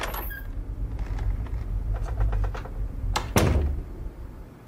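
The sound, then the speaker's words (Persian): Someone locks a door with a series of small metallic clicks and rattles, followed by a single heavier thunk. “درو پشت سرم قفل کن.”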